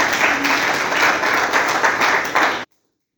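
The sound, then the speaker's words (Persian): A group at an addiction recovery meeting gives a round of applause, steady dense clapping that carries on evenly, then cuts off abruptly into silence. “آفرین یه دست سرش بزنیم.”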